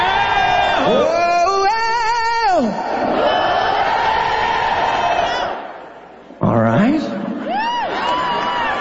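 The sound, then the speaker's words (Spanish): A live concert crowd at T-Mobile Arena shouts and sings together in a loud, sustained, wavering roar. It drops briefly near the end, then surges back. “¿Quieres escuchar al público esta noche?”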